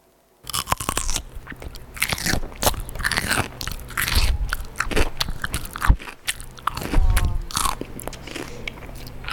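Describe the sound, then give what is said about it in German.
Someone bites into a crisp salad cucumber and chews, producing many loud, wet crunches and crackles in an irregular rhythm that continues steadily for several seconds. “es ist knackig wie eine Möhre, aber hier war es eine Gurke. Eine Salatgurke.”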